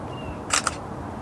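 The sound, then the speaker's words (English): Camera shutter taking a picture during a bicycle brake cable replacement, two quick crisp clicks close together over a steady faint background hiss. “Let's see if I can get a good picture of that.”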